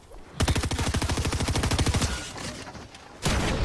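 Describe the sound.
Rapid automatic gunfire from a Fortnite video game match: a long burst of many sharp shots in quick, even rhythm, a short pause, then another loud burst at the end.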